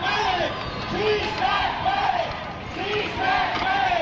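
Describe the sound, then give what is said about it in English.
A crowd at a demonstration in a downtown Tulare park shouts in rhythmic surging waves. Many voices rise and fall together in repeated chant-like bursts, fairly loud and continuous. “The park in downtown Tulare. And you can hear the demonstration.”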